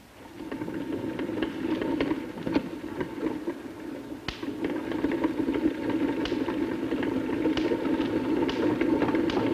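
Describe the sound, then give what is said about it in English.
Sparks from a small hand-cranked belt electrostatic generator jump between a wire mesh and a ball, heard as a few sharp ticks and crackles over a steady, mid-pitched mechanical whirring drone that continues throughout. “You can see that as I slowly rotate the crank, this belt is moving. And then if I rotate the crank a little faster, you will see a spark jumping between this wire mesh and this ball over there.”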